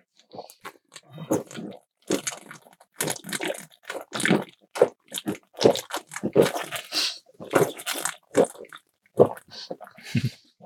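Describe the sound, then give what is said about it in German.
Beer is drunk from bottles, with many short, wet gulping and gurgling bursts coming in an irregular rhythm and separated by brief pauses. “Komm, wir trinken einen Schluck Bier, weil das heißt ja auch Zauberer und Bier. Stößchen. Ja, cheers. Und das klingt schön aus Flaschen.”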